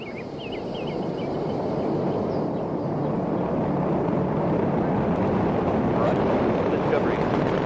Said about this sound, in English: 3, 2, 1, and liftoff of Space Shuttle Discovery, beginning America's new journey to the moon, Mars, and beyond. And the vehicle has cleared the tower.